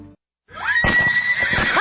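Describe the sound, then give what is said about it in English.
A horse whinnies at a riding stable: a loud, shrill call that holds a steady high pitch, then breaks into rough, shuddering bursts after a brief silent start. “We buy, sell, trade horses. We board horses, lease horses.”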